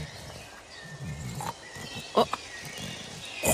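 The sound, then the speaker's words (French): A voice imitates a large wild boar with rough grunting and snorting: a few short, breathy bursts, fairly faint, with the strongest snorts near the middle and at the end. “Oh, euh, c'est un gros animal, dis donc Oh, un sanglier”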